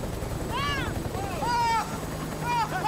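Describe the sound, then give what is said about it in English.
Helicopter landing in front of a hangar, its rotor blades spinning, with a steady, loud, low rumble that runs continuously through the whole clip. “Now the chopper lands in front of a hangar reading Nevada Aviation.”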